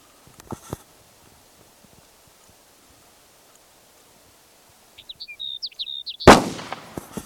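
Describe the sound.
Bird calls: a quick run of high, thin chirps after a long near-silent stretch with a few faint knocks. The calls are cut off by one sharp, loud, noisy burst that trails into rustling.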